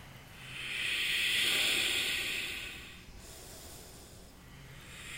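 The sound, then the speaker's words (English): Ujjayi breathing during a yoga class, a hissing, ocean-like breath through a narrowed throat that swells over about two seconds and fades, then goes on more softly, with no talk. “More breath. Ujjayi as your second pillar. One of the foundational elements of the practice.”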